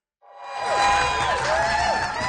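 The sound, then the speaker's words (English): Cheering crowd of hundreds of supporters, friends and family at Vancouver International Airport welcoming three returning travellers; the noise swells in after a brief silence into a dense, sustained roar with rising shouts and whoops. “Cheers fill the airport as Sebastian Tao, Michael France, and Mary Grace Matheson are welcomed by supporters, friends, and family.”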